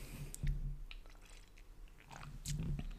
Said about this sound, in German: Warte mal, ich nehme mal gerade einen Schluck.